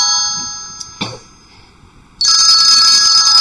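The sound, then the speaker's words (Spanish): A telephone rings as a call is placed to a doctor: faint tones and a single click first, then a loud, bright, sustained electronic ring that starts about two-thirds of the way in and continues to the end. “creemos que esta es una buena ocasión para consultar a un experto en el tema, es un doctor, y vamos a proceder a llamarle”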